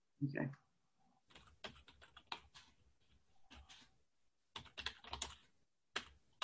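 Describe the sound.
Quick computer keyboard typing while spelling out glucose: soft, irregular bursts of keystrokes broken by short pauses, quiet throughout.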